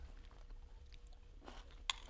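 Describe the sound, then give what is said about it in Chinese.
Someone quietly chews a bite of shrimp tossed with tomato, soft wet mouth sounds and faint crunches ending in one brief sharp click, all faint with no talking. “OK，好，那我就来尝一口，我看看虾子这样会不会很奇怪？”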